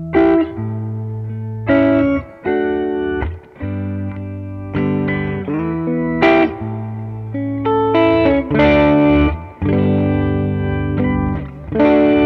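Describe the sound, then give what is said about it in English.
Electric guitar played through a ruby red JHS signature effects pedal: loud, distorted, chorus-tinged chords rung out in sustained phrases with brief breaks between them, forming a melodic song passage without voices. “I love this pedal. I've got a ruby red pedal, obviously.”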